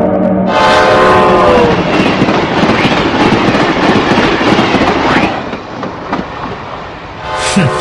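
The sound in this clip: A train at a railway station rumbles and clatters loudly and steadily. A horn sounds at the start, and a shorter blast sounds near the end.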